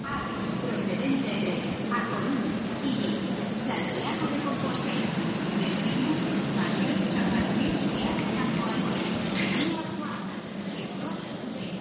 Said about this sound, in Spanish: Estamos en la estación de Renfe de Orense y está llegando ya el tren que nos devolverá a Madrid.